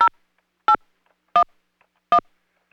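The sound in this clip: Telephone keypad tones enter a voicemail passcode: five short, evenly spaced electronic beeps with silence between them.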